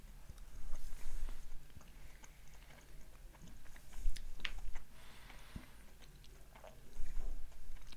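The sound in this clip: Soft, irregular chewing of caffeinated cherry energy gummies, with faint moist clicks and smacks repeating unevenly at a low level and no voices.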